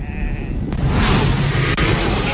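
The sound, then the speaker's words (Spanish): Sheep bleat from a flock over a loud, steady low rumble. A harmonic bleat comes near the start, and a couple of sharp clicks cut through the noise. “Estamos atrapados. De las ovejas. Las ovejas se están rebelando.”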